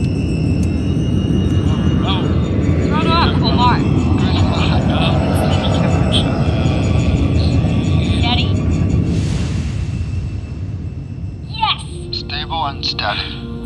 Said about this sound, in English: Successful takeoff of Phoenix 1 en route from MechD headquarters.